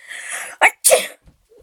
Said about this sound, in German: Du kitzelst mich ja! Da muss ich auch noch niesen.